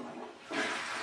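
A toilet flushes, its loud rush of water surging in about halfway through and holding steady to the end, with quieter background noise before it.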